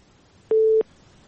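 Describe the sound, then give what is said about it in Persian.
A single short busy tone on a radio call-in as a phone call fails to connect: one steady, even-pitched beep lasting about a third of a second, starting and stopping abruptly. “بله خب تماس از ایام برقرار نشد، تماس بعدی را میگیریم.”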